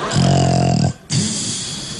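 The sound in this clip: A voice imitates loud snoring: one long, rasping, low snort on the in-breath, a short pause, then a breathy, rattling out-breath that fades slowly.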